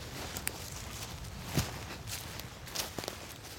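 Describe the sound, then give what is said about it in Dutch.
Footsteps walking behind someone outdoors on a green meadow: a few faint, irregular soft steps and scuffs over a low, steady rumble, with no talk. “Ik blijf achter je aanlopen.”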